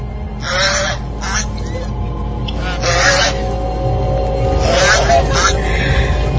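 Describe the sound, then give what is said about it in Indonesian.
A goose honking outside near a bedroom window, with several harsh, nasal calls in uneven bursts over a steady low background hum. “terdengar suara angsa dari arah luar dekat jendela kamarku itu.”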